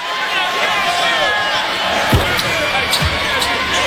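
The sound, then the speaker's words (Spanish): A basketball bounces before a free throw in an NBA game, giving a couple of low thuds beneath steady crowd noise while commentators talk. “Era un momento extraño para todos e iba a tener la oportunidad de anotar una última canasta como jugador profesional después del tiro libre de Julius Randle.”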